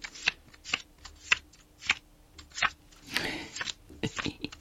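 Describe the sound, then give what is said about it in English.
Playing cards dealt from a dinosaur card pack in a card game: many crisp, separate snaps of cards landing at an uneven pace, broken midway by a longer riffling shuffle of the deck. “I'll deal you 5 cards each from the dinosaurs pack.”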